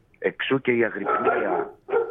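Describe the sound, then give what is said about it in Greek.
A dog vocalizes in a few loud bursts, short yips followed by a longer drawn-out whining sound, then another brief yelp after a pause. “Έχω και το σκύλο μου εδώ πέρα, πειράζει λίγο.”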